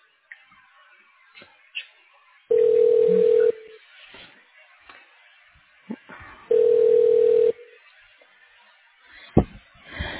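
Telephone line ringing as a hospital call is transferred: two steady, low-pitched ring tones about a second long, separated by a few seconds of faint line noise and scattered clicks.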